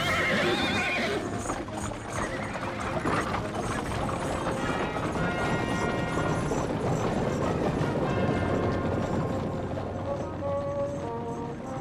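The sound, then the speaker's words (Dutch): Horses neigh as war chariots set off, with a whinny near the start over a dense, continuous clatter of rattling, ratcheting wheels and clopping hooves that stays loud throughout. “Maak de strijdwagens gereed. We rijden onmiddellijk naar Jezreel.”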